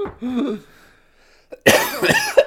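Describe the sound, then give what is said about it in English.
A cough goes straight into the microphone, a loud, harsh burst that follows a brief vocal sound and a moment of near silence, with a few rough after-bursts trailing off. “Excuse me. Sorry, that was into the microphone. But, yeah, I did it. What? I coughed into the microphone.”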